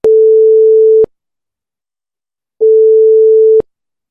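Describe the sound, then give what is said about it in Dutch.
Ringing tone on a telephone line during an outgoing call: two steady one-second beeps at a single mid pitch, separated by a pause of about a second and a half, with no other sound. “En degene die het aangevraagd heeft is Inge, dus die gaan we nu even bellen.”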